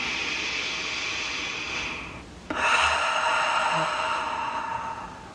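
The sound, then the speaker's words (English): A deep breath drawn in through the nose and let out through the mouth during a relaxation exercise: two long, soft, airy rushes separated by a brief pause, with no talking. “take a really nice deep breath in through the nose, out through the mouth.”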